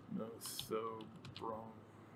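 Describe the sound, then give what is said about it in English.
Keyboard typing as a fish genus name is entered into a chat, a few soft clicking keystrokes scattered beneath a person speaking. “If you don't know what the Nothobronchius genus looks like, let me type it and put it in chat so you can look it up.”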